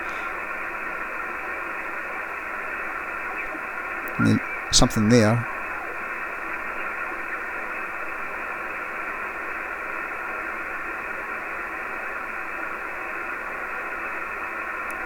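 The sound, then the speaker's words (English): Steady shortwave radio static hisses at a constant level as the dial is tuned across the 7 MHz amateur band. A brief snatch of speech cuts in partway through. “There's nothing but noise and rubbish on at the moment. There's nothing to interesting to listen. I'll just let you hear as I spin the thing around down.”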